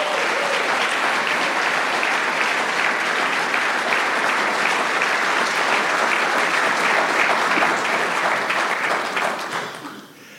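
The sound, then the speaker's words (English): Sustained audience applause at a church gathering as a couple comes up to the front, a dense, even wash of clapping with no talk that fades away near the end. “Let's give them a hand as they come.”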